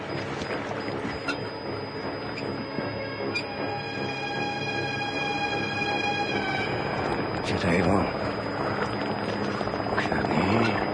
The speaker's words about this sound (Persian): هلیکوپتر آمریکایی بالای سر گروه چرخ میزنه. صدای هلیکوپتره.